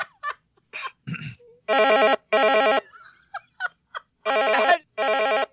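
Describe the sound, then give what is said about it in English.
Telephone ring sound effect with bright, warbling electronic tone in four even bursts grouped in two pairs, preceded and separated by a few short, scattered noises. “you want to make the ringy ding noise for me? All right. Let me solve that problem. Make the ringy ding noise.”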